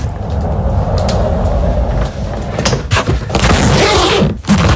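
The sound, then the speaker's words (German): A rolling suitcase is wheeled along with a loud, continuous rough rumble, then a few clicks and a thump near the end as it is opened. “Das ist dein Rollkoffer. Du bist mit deinem Koffer entlang gerollt und hast ihn dann aufgemacht.”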